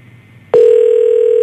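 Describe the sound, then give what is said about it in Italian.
International telephone ringing tone on a call to a town hall. It is a steady, loud, single-pitched tone that starts suddenly after faint background noise and holds unbroken to the end. “questo sembra uno squillo internazionale. Estero. Internazionale.”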